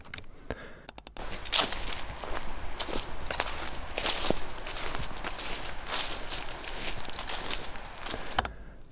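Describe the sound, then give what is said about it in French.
Footsteps walking through grass: many soft swishing, crunching steps at an uneven pace over a faint background hiss, with no voices. “Ça, des pas dans les herbes, ok, des pas dans les herbes.”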